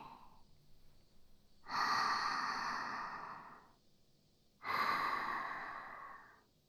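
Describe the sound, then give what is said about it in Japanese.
Slow, deep breathing of someone calming down: two long, airy breaths, each swelling quickly and then fading over about two seconds, separated by a short quiet gap. “落ち着いてー。息吸ってー。吐いて”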